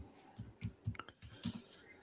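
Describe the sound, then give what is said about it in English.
Typing on a computer keyboard: faint, irregular key clicks, a handful of short taps spread unevenly with brief pauses between them. “Of course, it helps if I type the right thing here.”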